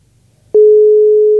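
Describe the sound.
A telephone line gives a tone while a call is being returned. After a moment of silence and a click, a loud, steady, low-pitched tone starts abruptly and holds without a break to the end.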